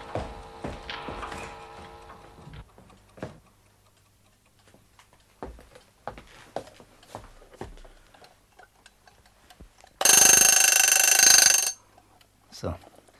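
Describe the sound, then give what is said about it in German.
An alarm clock in a bedroom is handled and set: a series of small ticks and handling clicks, with talk early on, then a loud, sustained ring lasting under two seconds, followed by a few more clicks. “So, die Standuhr auch auf 6. Jetzt fehlt noch der Wecker in seinem Schlafzimmer. Da drüben.”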